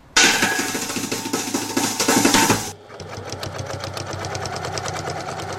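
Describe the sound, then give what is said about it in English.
A community quilting group's quilting machine runs with a loud, whirring mechanical rattle for over two seconds, then drops to a quieter, steady rhythmic stitching hum. “So we've now got two proper quilting machines.”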